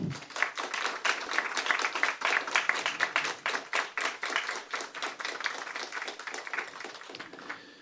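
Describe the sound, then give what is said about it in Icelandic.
A smaller audience at an Icelandic association meeting claps in thanks, with distinct individual handclaps forming a brisk, uneven patter that gradually thins and softens. “Mér langar eiginlega bara að byrja ykkur að gefa þeim gott klapp.”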